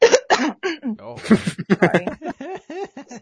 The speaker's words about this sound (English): I'm gonna cough probably a little bit of a phlegmy cough.